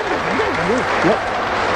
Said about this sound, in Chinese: 我说男同志，您给鼓鼓掌得了